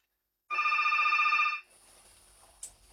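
A telephone rings once before a call is answered: one loud, trilling electronic burst of about a second with a rapid warbling pulse. It cuts off into faint low background noise, with a brief click near the end.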